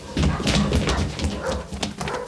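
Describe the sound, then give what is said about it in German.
Several dogs bark and rage in an agitated pursuit, a loud, continuous chorus of overlapping barks and yelps without any pause. “Jetzt weiß ich, warum die Hunde so toben.”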